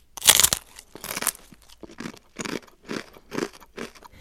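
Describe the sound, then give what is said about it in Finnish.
Crunchy crispbread being chewed: many sharp, dry crunches in a steady rhythm, the first bite loudest and the later ones softer, with no talking. “Kun syömme tällä tavalla näkkileipää, niin näkkileipä alkaa hajota jo suussa.”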